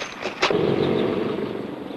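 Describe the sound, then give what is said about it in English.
A military truck and a police car drive past a village green: after a brief knock, a loud engine rush swells in and holds as a steady roar. “In town, a military truck and a police car drive past the village green.”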